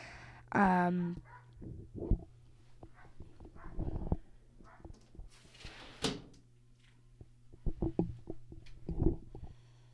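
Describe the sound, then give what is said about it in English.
A dog barks, one sharp, harmonic bark near the start followed by a few shorter, scattered knocks and noises over the rest of the stretch. “Excuse the dog barking.”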